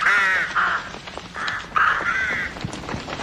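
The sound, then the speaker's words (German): A flock of crows caws loudly in a few harsh, overlapping bursts, each a raspy, grating call, coming in quick irregular succession with brief gaps between them. “Lautes Gekrächze. Ein Schwarm Krähen, der plötzlich vom Himmel zu fallen schien.”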